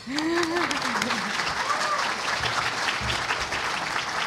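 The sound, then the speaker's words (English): Loud audience applause opening the question session of a free software conference panel, a dense, sustained patter of many hands that holds steady throughout, with a voice briefly audible near the start. “And maybe first we can have a round of applause.”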